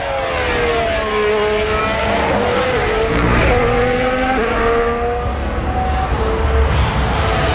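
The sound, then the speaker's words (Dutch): Engine of a Ferrari Formula 1 car driving out onto the track during a session of long runs. It makes a continuous, loud, high-pitched whine whose pitch shifts up and down, and it holds steady throughout. “Ferrari was binnen met twee coureurs. Maar goed, Leclerc rijdt nu naar buiten.”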